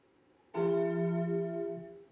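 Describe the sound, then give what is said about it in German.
A large farm bell struck once, giving a loud ringing tone with bright sustained overtones that slowly fades over about a second and a half. “Die große Glocke des Bauern riss ihn aus seinen Gedanken.”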